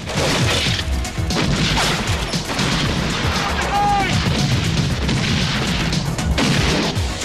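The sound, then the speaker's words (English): Gunfire in a shootout among weapons crates, many loud overlapping shots and bangs in dense, irregular bursts throughout, with voices mixed in. “Dent's men fire at them. They shoot back and duck for cover.”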